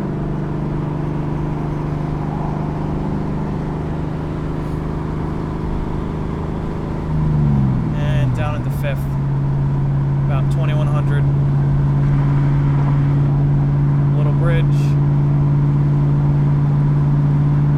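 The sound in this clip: A car engine drops off the throttle and settles from about 3,300 to 3,000 rpm: a steady droning hum whose pitch dips partway through and then holds lower and even, with some talk over it.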